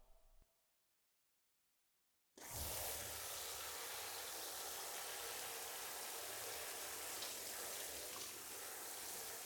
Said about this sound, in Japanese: 髪の毛洗うからじっとしてて。頭にお湯かけるよ。